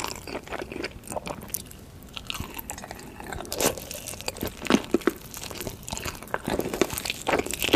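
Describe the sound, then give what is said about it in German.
Crunching and chewing of heaps of food in eating videos: many crisp, crackling bites and wet chewing sounds follow one another in an irregular rhythm, with no talk. “in denen man nichts anderes macht, als ja, gucken, wie sich Leute Berge von Essen reinziehen. Ich esse lieber selbst, aber manche benutzen solche Videos auch zum Einschlafen, haben wir gelernt. Und ja, so hört sich das an.”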